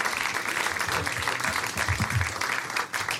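Audience applause welcoming a school principal onto the stage as a guest, a steady wash of clapping that holds throughout and tapers off at the very end.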